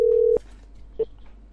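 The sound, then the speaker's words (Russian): Telephone line tones while a number is being called: a steady, low, loud tone that cuts off abruptly, then after a short pause a single brief beep. “Сейчас я еще раз наберу на этот номер.”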